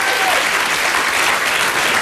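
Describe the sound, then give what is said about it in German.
An audience applauds with dense, steady clapping that stays loud and even from start to finish. “Applaus für Herrn Eschweiler.”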